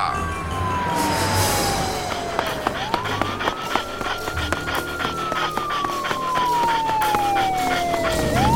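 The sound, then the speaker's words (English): An ambulance siren wails in long, slow sweeps, its pitch gliding down, climbing again and then sinking once more, steady and prominent over a busy background. “He's escaping in that ambulance. I must avenge my father. My master is certainly attempting to bring his killer to justice, though I'm not sure he'll catch that vehicle on foot.”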